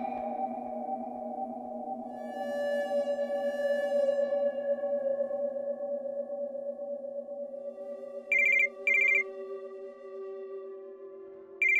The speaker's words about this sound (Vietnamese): Tiếng chuông điện thoại lại vang lên đáng ghét